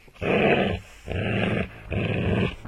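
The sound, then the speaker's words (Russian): A dog growls in three long, rough rumbling bursts, each about half a second, separated by brief quiet pauses, loud and alone with no other sounds. “услышала рычание пса”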